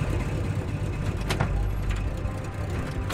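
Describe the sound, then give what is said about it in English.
A pickup truck driving to a hospital gives a faint, steady mechanical rumble, with a few brief clicks and rattles over the road noise. “Luther drives Christy, Gavin, and Jefferson to the hospital.”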